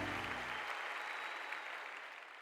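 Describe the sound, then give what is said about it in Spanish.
Audience clapping, a dense, steady wash of many hands that stays faint throughout and tapers slightly toward the end. “dale esa fiesta de palmas a él.”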